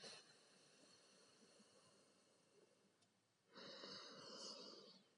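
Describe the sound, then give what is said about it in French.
Soft nasal breathing during alternate nostril breathing, in through the left nostril and out through the right. A long, faint, airy breath gives way to a stronger, hissing breath near the end, all very quiet, with no talking. “Je continue à mon rythme d'inspirer par ma narine gauche et d'expirer par ma narine droite.”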